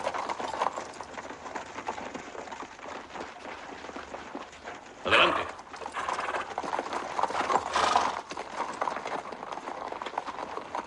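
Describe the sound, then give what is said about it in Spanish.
Hooves of several horses galloping toward a crowd of protesters lying on the ground, then pulling up and rearing. A fairly faint, continuous drumming of many hooves, broken by two louder, sharper bursts partway through. “Al llegar junto a ellos, los caballos frenan y se encabritan, pero no atraviesan la masa de hombres tumbados.”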